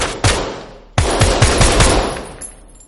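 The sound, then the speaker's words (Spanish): Gunshots at a shooting gallery: a few sharp, loud reports with ringing decays, the second blast opening a rapid run of further shots that fades away. “Disparan en una galería de tiro.”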